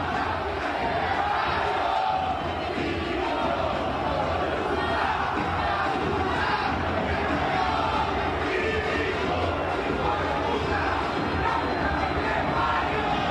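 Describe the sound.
Crowd at Racing's stadium, El Cilindro, during a football match: a dense, continuous roar of many voices, with shouting and chanting blended into an unbroken, steady wall of sound.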